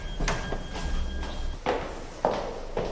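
A door is opened: several sharp knocks and dull thumps of handle and frame sound at uneven intervals, moderately loud over a steady background hum.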